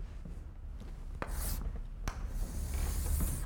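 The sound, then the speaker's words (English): A lecturer draws graphs on the board, producing soft scratchy rubbing strokes with a couple of sharp taps, fairly quiet against a low background hum. “A couple of different cases. I'm going to draw graphs.”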